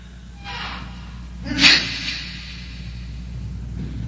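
A single brief sneeze bursts out over a low, steady background hum, with a softer breath just before it.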